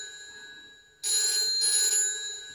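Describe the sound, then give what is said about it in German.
A telephone bell rings, starting abruptly partway through and continuing as a loud, steady, bright ring over a faint low background until the end. “Geh ans Telefon.”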